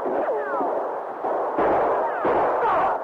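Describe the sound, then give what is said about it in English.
Gunshots ring out on a ship's deck during a shootout: a few sharp, loud cracks, with whistling, falling tones trailing after them over a dense, steady background din. “The sergeant's shooting was accurate. Chalmers and Garrett's wasn't. The two killers dropped to the deck.”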